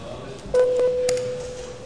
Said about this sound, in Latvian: Paldies, lūdzu zvanu.